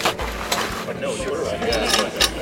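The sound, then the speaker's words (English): Metal clanks and ratcheting clicks from a clamp being hooked to airport carpet so a removal machine can pull it up, several sharp knocks scattered under steady talking. “Describe what you're doing real quick. I'm hooking the clamp to the carpet so the machine can pull it up.”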